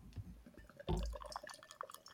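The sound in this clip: Beer spraying up from a freshly opened 50 cl bottle of 8.2% imperial stout: one sudden fizzing burst, then a faint wet spatter and dripping that trails off quietly.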